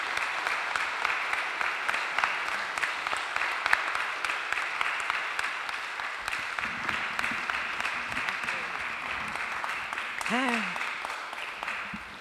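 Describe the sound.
Sustained audience applause welcoming a speaker at an Indigenous People's Day rally, with people standing; dense, steady clapping throughout and a brief voice rising near the end.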